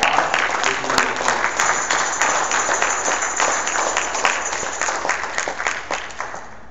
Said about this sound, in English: Let's give a warm Emmanuel welcome to Mr. Robert Spector.